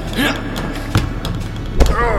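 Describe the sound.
A thrown dodgeball hitting its target, heard as two dull thuds about a second apart over a steady background.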